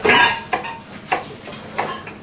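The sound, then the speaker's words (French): A knife cuts Jerusalem artichokes being prepared for a cream soup, giving a few crisp, separate cutting strokes with quiet gaps between them. “on entend votre couteau qui est en train de couper des topinambours”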